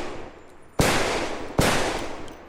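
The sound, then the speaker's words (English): Two sharp gunshot cracks from a .38 revolver, fired in cold winter air. Each crack is loud and sudden, with a long, noisy tail that trails off before the next. “He pulls the .38 out of his pocket, points the gun at his target, the very center of his obsession. He squeezes the trigger 5 times and cracks ring out in the taut winter air.”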